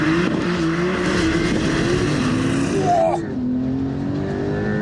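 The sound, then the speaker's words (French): A car accelerates hard from a launch-control start on a wet, slippery track. The engine roars loudly and continuously, with a brief dip partway through before the drive picks up again. “Donc, pied à fond sur l'accélérateur. J'ai un petit affichage hold qui me dit que je suis en procédure launch control. C'est parti, je lâche.”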